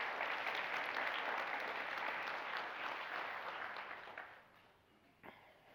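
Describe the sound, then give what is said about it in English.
Applause from an audience welcoming a middle school student coming up to read from Luke chapter 2: a dense, sustained clapping that holds steady, then thins and fades over the last couple of seconds. “Would you give her a huge hand as she comes on up here?”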